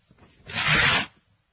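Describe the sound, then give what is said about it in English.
A sheet of paper being torn: one quiet, rasping rip of about half a second that swells and stops abruptly, alone with no talk. “If you rip or tear the paper will now be in two different pieces.”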